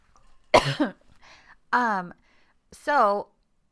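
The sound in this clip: A person clears a throat thick with phlegm in three harsh, voiced bursts. Each has a raspy, falling tone and is separated by brief pauses.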